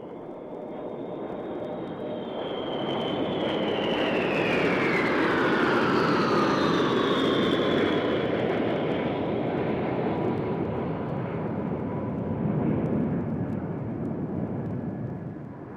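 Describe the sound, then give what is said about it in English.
Six giant B-52 Stratofortress bombers fly past in close formation: a loud, sustained jet-engine roar that swells and holds for about sixteen seconds, with high whining tones gliding downward in pitch as the aircraft pass. “As a contrast in sizes of aircraft, let's listen now to six giant B-52 Stratofortresses flying by in close formation.”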